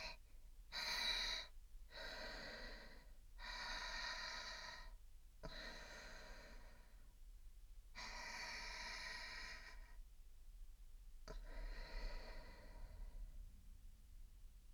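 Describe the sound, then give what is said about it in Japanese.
Deep, slow breathing, someone steadying their nerves with six long, breathy inhale-and-exhale bursts separated by short pauses, with no talking. “深呼吸をした方がいいですよね。”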